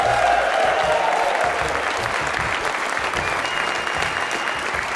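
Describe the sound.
A live studio audience on the University of Louisville campus applauds, a dense, steady wash of many hands clapping that fills the whole stretch without a break.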